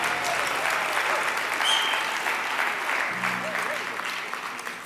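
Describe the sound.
Audience applause welcoming a family onto a stage: dense, steady clapping that stays loud throughout and tapers slightly toward the end.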